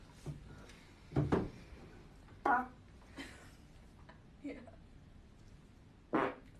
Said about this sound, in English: Guess the fart. No, that wasn't close. Guess my fart.